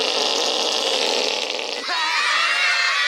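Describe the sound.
A voice imitating a fart makes a sustained raspy, buzzing blurt that runs for about three seconds, shifting briefly in tone near the end.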